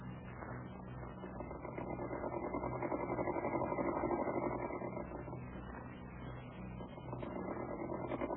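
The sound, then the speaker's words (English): A sewing machine hems the edge of a large handkerchief, giving a faint, steady mechanical whir with small shifts in level. “Here is a large handkerchief. Will you step over to the machine and show me how you would hem that?”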